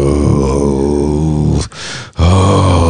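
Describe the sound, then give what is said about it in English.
A voice imitates a deep, guttural groan: a loud, low, rasping sound held for over a second, broken by a short breathy pause, then starting again just as strongly. “that inner guttural sound of the essence of your whole body.”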